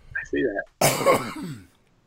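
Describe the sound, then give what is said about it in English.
A person on a video call caught in a coughing fit: a short throaty rasp, a brief gap, then a loud, broad, harsh cough that trails off into a strained voiced breath. “Can't stop coughing.”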